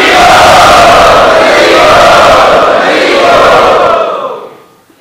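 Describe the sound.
A crowd at the Radha Gopinath temple cheers and shouts an enthusiastic welcome to guests. The roar is loud and sustained, then fades out over the last second.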